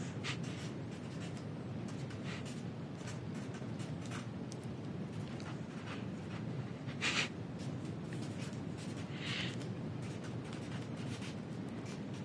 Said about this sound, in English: you remember the entire first date with how much you're writing.